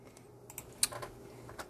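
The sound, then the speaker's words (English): Computer keyboard typing as a height is entered: a few soft, separate key clicks at an irregular pace, faint against quiet background hiss, with no voices. “Let me put that down. Let me type it in.”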